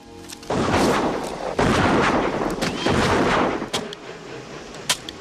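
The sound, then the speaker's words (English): Rifle fired repeatedly: a few loud, booming shots spaced irregularly apart, each with a long, rough, ringing tail that blends into the next. “He passes through a gap in an aged stone wall, holding his rifle at the ready. He sees the shadow of a man with a gun on another wall and fires repeatedly.”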